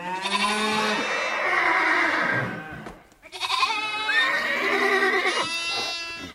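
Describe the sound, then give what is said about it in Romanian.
Calls from herds of horses, cattle and sheep: two long, loud, wavering animal cries separated by a brief pause, rich and quavering, with no talking. “nenumărate herghelii de cai, cirezi de vite și turme de oi ies din ea”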